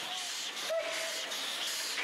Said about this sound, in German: Gekrönt wird der Auslandsaufenthalt mit einer Ausfahrt auf österreichischen Gleisen, mit Unterstützung einer heimischen Lok.